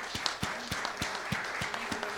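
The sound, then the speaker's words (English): Congregation applause in a church: a steady run of sharp, evenly spaced claps over a continuous murmur of noise. “Let us give up and give them a round of applause.”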